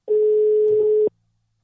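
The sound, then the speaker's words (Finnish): Ringing tone of an unanswered phone call: a single steady, mid-pitched beep lasting about a second, then silence. “vastaako se. Ei se vastaa. Jos se ei tiedä tätä numeroa.”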